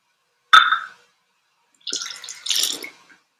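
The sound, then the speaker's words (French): Water sounds from cleaning a manual coffee machine filled with too much hot water: a sharp clink, a short quiet gap, then two brief bursts of watery splashing and gurgling. “c'est une machine manuelle que j'ai remplie d'eau chaude. Je dois nettoyer d'abord la machine. J'ai mis trop d'eau.”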